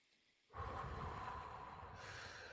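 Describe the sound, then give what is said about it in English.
A deep breath taken as part of a calming exercise: one steady, airy rush of breath that starts suddenly and holds at an even, fairly loud level for about two seconds, with no talk. “take a deep breath in through your nose, out through your mouth.”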